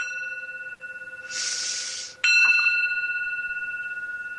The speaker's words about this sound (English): Then I say, breathe in the bell. It sounds like this.